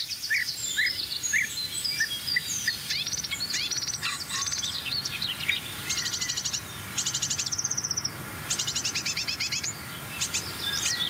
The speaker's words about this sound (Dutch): Ook jonge koolmeisjes.